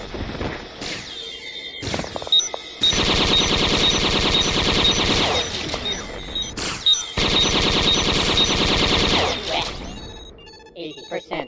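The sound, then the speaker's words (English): Turret guns fire in a video game in long, loud bursts of rapid mechanical gunfire. Two main stretches of continuous shooting are separated by a short break, with scattered shorter shots before and after. “I hate those turret guns.”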